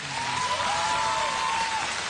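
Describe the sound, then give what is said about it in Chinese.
Warm applause from gathered villagers welcoming visiting leaders, a dense, steady patter of clapping that holds at an even loudness throughout, with a thin sustained tone running over part of it. “来，我们以热烈的掌声欢迎领导光临指南。”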